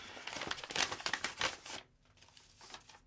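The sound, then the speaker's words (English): Paper crinkles and tears as a Valentine's card is unwrapped, a busy burst of rustling and crumpling for under two seconds before it drops to faint, sparse handling noises. “What is it? It's a Valentine's card.”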